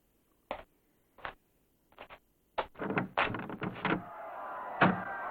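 Small window hatch being opened: a few faint, separate knocks and clicks, then a cluster of rattling, scraping handling noises, ending in a soft thud.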